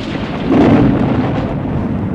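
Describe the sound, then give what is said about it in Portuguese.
Thunder rumbles low, loud and sustained, swelling early and then rolling on steadily without a break. “Mas de raios e trovões, sinto arrepio só de pensar.”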